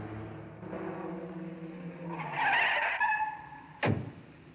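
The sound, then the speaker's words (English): A car engine and screeching tires as a red and white car speeds along country roads, followed by a black police car. An engine hum gives way to a rising tire squeal, then a brief sharp burst. “Roby's red and white car speeds along country roads, followed by the black police car, to his villa in the hills.”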